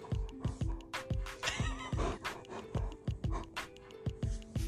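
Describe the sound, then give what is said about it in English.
A dog pants in quick, even breaths, many short rhythmic huffs at a steady pace, fairly faint throughout. “I have no idea if you heard any of that. So sorry if you did. But that's my dog.”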